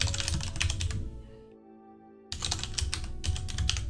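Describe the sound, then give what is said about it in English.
Rapid typing on a computer keyboard clatters in quick bursts of key clicks over steady background music, stopping briefly in the middle before resuming. “Let me type that out.”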